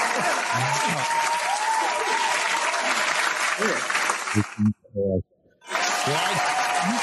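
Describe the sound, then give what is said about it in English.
Studio audience applause on a sports talk show, dense clapping that runs steadily, breaks off into a brief silence with a voice heard just before, then picks up again. “But you know what? The fans are going crazy. If I can get the studio audience.”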